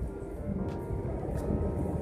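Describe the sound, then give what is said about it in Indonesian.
Train station ambience: a low, steady rumble of rail traffic and machinery, fairly faint and even throughout, with no clear voices. “aku lagi di stasiun nih”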